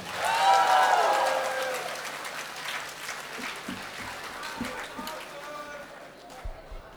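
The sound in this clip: Audience applause at a live concert, fairly quiet, with a voice heard over the opening seconds, then steady clapping that slowly fades with a few louder claps near the end.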